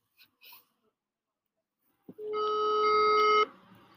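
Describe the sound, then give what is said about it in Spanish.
A telephone call being placed to a number in Spain: a few faint blips, a short click, then a steady buzzy electronic tone rich in overtones holds for just over a second and cuts off. “Vamos a hablarle al número de España. Muy bien, adelante.”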